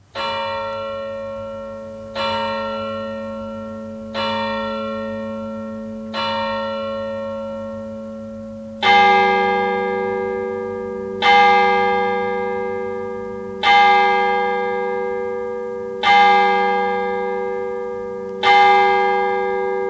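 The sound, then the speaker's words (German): Church bells ringing at midnight in a village: nine slow, resonant strikes about two seconds apart, each ringing out and decaying. The first four are softer and the last five louder and fuller, with no voices. “Mitternachtsläuten in Bülertern.”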